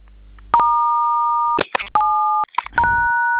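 Telephone keypad tones dial a star code into a phone service menu: three long, steady dual-pitched beeps, each separated by short noisy bursts.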